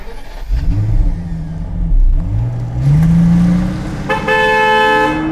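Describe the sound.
A car driving off, its engine revving and climbing steadily in pitch as it accelerates, followed by a loud car horn blast near the end.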